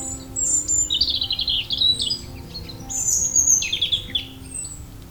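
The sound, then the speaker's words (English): European robin calls in thin, high warbling phrases, several bright bursts of song rising and falling over a steady low background hum. “the red feathers that were passed on to future generations of robins. Listen out for their call over this month.”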